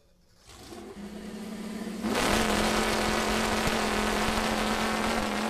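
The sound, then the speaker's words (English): Engine roar of a homemade chainsaw powered by a V8 engine: a rumbling idle that jumps about two seconds in to a loud, steady, droning roar with a low hum. “That's the sound of a V8 chainsaw, a piece of equipment someone in the southeast has built.”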